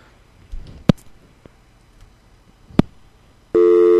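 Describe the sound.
A steady telephone tone cuts in abruptly near the end after the caller hangs up, following two sharp clicks over a quiet, hissy line.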